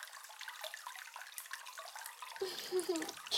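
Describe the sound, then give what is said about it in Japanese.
Water splashing and trickling while someone's hair is washed, a soft continuous wet wash that grows fuller and more present toward the end. “頭を洗いながら指圧もしていきます。”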